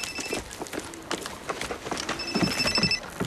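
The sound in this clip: A telephone rings in two short bursts amid busy knocking and clattering sounds in an Italian police drama.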